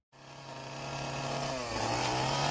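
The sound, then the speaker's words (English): A chainsaw motor kicks in abruptly and runs at a steady, loud, raspy buzz with a constant low drone, gradually growing a bit louder over a couple of seconds with no voices. “You know what that is? That's the sound of a chainsaw.”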